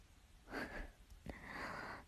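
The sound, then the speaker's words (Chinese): A person smelling of alcohol blows breath out toward someone's face: two faint, airy exhales, the first brief and the second longer and more drawn out, with no talk. “朝我脸上呼气，想我？”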